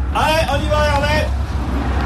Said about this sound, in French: le camion ne s'est pas arrêté. Et je viens juste de récupérer le cône. Et le camion continue de rouler, en fait.